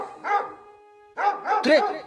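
An angry dog barks at a door at night: a few sharp, harmonic barks, a single bark first, then after a short pause a quick cluster of several more, fairly loud.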